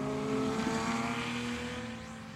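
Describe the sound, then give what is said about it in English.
Engine roar of supercars at a Goodwood supercar event: a first-edition Dodge Viper in full Le Mans spec, then a Ferrari F12 and a Ferrari F8 Tributo. A loud, sustained drone with steady harmonics eases off slightly near the end. “I've got a Dodge Viper, first edition Dodge Viper, coming through in full Le Mans spec and livery. Following that is an F12 Ferrari, followed by an F8 Tributo. Have a listen to these.”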